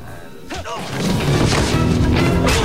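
A headbutt to a captor lands as a sudden heavy smash-and-thud impact, followed by loud, rough crashing noise that continues and builds to the end.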